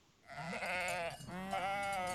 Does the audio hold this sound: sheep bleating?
yes